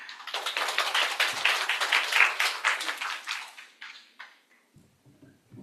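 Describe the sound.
Applause from an audience welcoming a speaker to share a testimony at a baptism class gathering: dense, steady clapping for about four seconds that thins out and dies away, with a voice starting faintly just as it ends.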